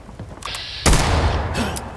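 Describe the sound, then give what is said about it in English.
A pipe gun firing in a video game: one sharp, loud blast cuts in partway through and decays into a rumbling tail, with fainter game sounds before and after. “I'll use this pipe gun.”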